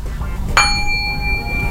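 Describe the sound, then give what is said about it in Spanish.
A gong struck once: a single sharp metallic hit followed by clear, sustained ringing tones that hold steadily over a low background rumble. “¿Sabes tocar este el gong? ¿Este es un chino o es un japonés? Ah, ¿sabes tocar el gong?”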